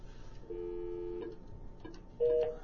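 Telephone number being dialed, heard as two steady electronic tones: a faint tone lasting under a second, then after a gap a shorter, louder beep, with low background hiss throughout.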